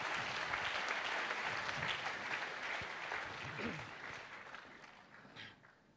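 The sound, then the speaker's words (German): Audience applause at a bilingual church gathering, a full, continuous clatter of many hands that stays strong for several seconds and then gradually thins and fades toward the end. “Давайте поаплодируем. Lass uns ihnen einen Applaus geben.”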